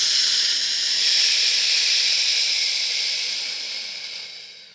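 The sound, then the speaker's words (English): A deep breath is drawn in, a long, airy, steady hiss lasting several seconds that tapers off at the end. “I want you to take one final big inhale, and then we're going to hold the air on top of the breath. Breathe fully in.”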